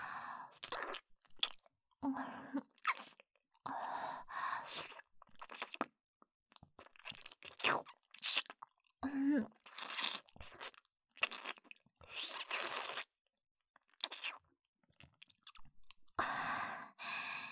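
Steak being chewed, with many wet, crunching bites and mouth sounds in irregular bursts separated by brief pauses, close and fairly quiet.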